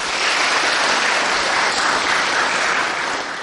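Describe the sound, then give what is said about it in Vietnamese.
Dense, loud audience applause at a monk's talk to young listeners, a thick continuous wash of clapping hands that holds steady throughout with no voices above it. “Đúng rồi, cho một tràng pháo tay.”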